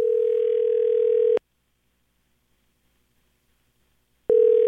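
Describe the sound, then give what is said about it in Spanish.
Ringback tone of an outgoing phone call: a steady, mid-pitched electronic tone sounds for over a second, falls silent for about three seconds, then starts again at the end. “entonces ya está sonando, vamos a ver qué contesta Elizabeth”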